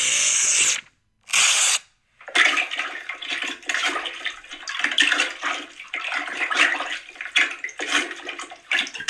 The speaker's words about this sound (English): Sounds like somebody's got their head down the toilet.